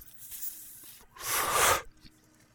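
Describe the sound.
A puff drawn on a cigar smoked in a cannabis session: a soft airy hiss, then a louder, longer breathy rush of air that ends abruptly, with quiet in between.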